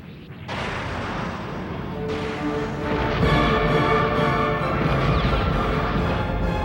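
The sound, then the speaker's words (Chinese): Heavy booming gunfire from space warships opening fire in an animated sci-fi fleet battle: a loud, dense roar with a few fresh bursts piling on top of each other, growing louder toward the end. “敌舰确认， 射击。”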